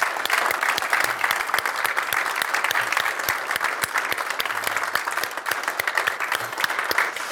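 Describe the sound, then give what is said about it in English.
Sustained applause from a church audience welcoming people forward, dense steady clapping that stays loud and even from start to finish without a break. “Would you stand this morning? Give them a nice warm welcome and a round.”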